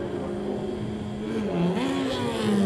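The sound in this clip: A Superstock superbike races past during a road race. Its engine drone rises in pitch and grows louder as the bike accelerates.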